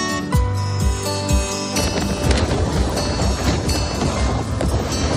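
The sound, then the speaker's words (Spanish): Strong wind sweeps the coast of Menorca in a loud, continuous roar with gusty buffeting and some brief tonal whistles early on. “así suena el viento en la costa de Menorca”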